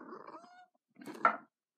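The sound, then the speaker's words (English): A cat gives two short, faint vocal calls, a tonal, wavering first call followed after a brief pause by a slightly louder, rougher second one. “the cat's just getting in the way”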